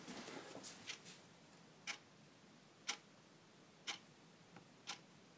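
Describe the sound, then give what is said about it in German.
Ticking from a clock that was won as a prize: five sharp, quiet ticks spaced evenly about a second apart, with a softer, busier patch of ticking and rustle at the start and no talking. “Das ist die Uhr”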